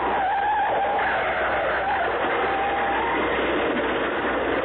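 Car tires skidding in an accident: a sustained squealing tone rides over steady rushing noise for the whole clip. It is fairly loud and continuous, with no voices.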